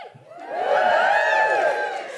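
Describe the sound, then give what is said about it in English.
A live audience at a feminist comedy show about Shakespeare cheers and whoops. The crowd noise swells within the first half second, holds loud and full, then eases slightly toward the end. “Just give us a cheer if you think Shakespeare was, in fact, a bunch of women.”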